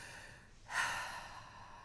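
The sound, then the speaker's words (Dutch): A single deep breath taken during a guided relaxation exercise: a soft, breathy whoosh swells up, then slowly fades away. It is faint and heard alone, with no talking. “dan kan je vervolgens een paar keer even wat dieper in en uitademen”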